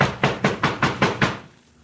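Heavy knocking on a door by men demanding to be let in: a quick, even run of loud thuds at a steady rhythm that stops abruptly, with no voices over it.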